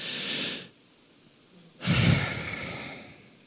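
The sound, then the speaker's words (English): Breathing during a spiritual forgiveness breathing exercise: a short soft breath, a pause, then a longer, fuller exhale that starts strong and gradually fades away. “Exhale.”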